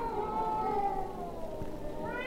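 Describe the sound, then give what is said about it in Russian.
Cats caterwauling on a city rooftop at night in March, with drawn-out, wavering yowls that hold at a steady, fairly loud level throughout. “Звучит знаменитый кошачий концерт.”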